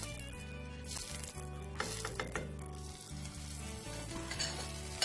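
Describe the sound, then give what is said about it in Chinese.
Pork belly skin fries in rendered pork belly fat in a pan, giving a steady, dense sizzle with fine crackling that runs unbroken throughout, fairly quiet and with no talking. “好啦，咁咧落少少腩油落去先， 煎到个皮脆啦。”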